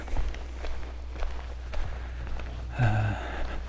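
Footsteps of a person walking on, a steady series of soft, dull thuds spaced at an unhurried walking pace.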